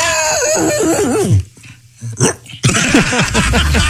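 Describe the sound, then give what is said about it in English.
Dog barks at night, voiced by a man imitating them: a run of loud, wavering yelps and barks, a brief quieter gap with a short yip, then another loud burst of barking. “Tell me when dogs bark at night, they have to get that last bark in.”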